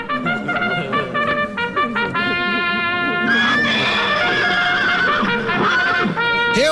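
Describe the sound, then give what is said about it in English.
Horse neighing in a comedy horse race sketch, several short, bright whinnies followed by a long, loud, shrill whinny with shaking harmonics and a few more neighs near the end. “play out with this. The COVID Gold Cup horse race from Casey and Ross in the morning on Cork's 96 FM.”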